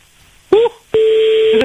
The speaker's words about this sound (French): Allez, bon, m'a pas trompé le numéro. Il sonne.